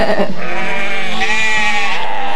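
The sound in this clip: A herd of sheep bleating, with loud, wavering overlapping bleats that sustain through the whole short stretch and carry no talk.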